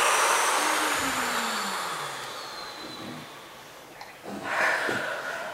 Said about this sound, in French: Grande inspiration et une grande expiration.